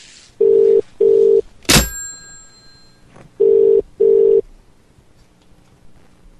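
Telephone tones after a call is hung up: two pairs of steady mid-pitched beeps separated by a sharp clunk, with a fifth beep starting at the very end.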